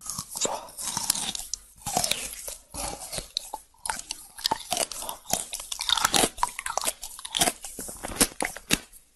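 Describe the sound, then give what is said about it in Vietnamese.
Loud, wet crunching and chewing as a monster devours a human heart torn from a man's chest, with many irregular bites and squishy crackles packed closely together for several seconds and no talk. “Nó móc trái tim của hắn ra khỏi lồng ngực, bỏ vào miệng nhai ngấu nghiến.”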